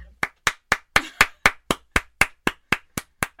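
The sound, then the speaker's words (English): Hands clapping in a steady, even rhythm, about thirteen crisp, sharp claps at roughly four per second, each one alone with no talk. “I should probably stop clapping so much”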